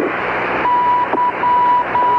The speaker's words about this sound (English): The only problem, mysterious Morse code signals have been interfering with the shuttle's radio signals.